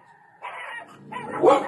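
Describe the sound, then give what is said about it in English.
A dog barks outside in a few loud bursts, each cluster of barks sharp and ragged, separated by brief quieter gaps. “There's a dog outside barking. I apologize.”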